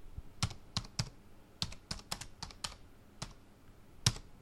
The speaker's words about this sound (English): Can you hear me typing? I'm going to be typing. I'm going to type in the name Bruce Wayne